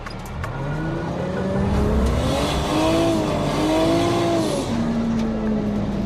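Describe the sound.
A car drifting while a learner practises clutch and handbrake technique, its tires squealing in a loud, sustained, wavering whine over steady engine noise for about six seconds.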